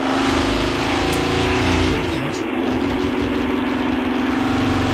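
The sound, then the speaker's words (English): A race car engine roars on a ride-along lap of New Hampshire Motor Speedway. The loud, dense drone of the high-revving engine holds steady throughout with no break. “this is roadkill going around New Hampshire Motor Speedway 20 years ago in one of those, you know, programs where they go and they take you for a ride along.”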